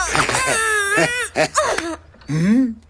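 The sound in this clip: Someone cries in loud, high, wailing sobs: several broken bursts with wavering, bending pitch, separated by short gaps, the last sob sliding upward.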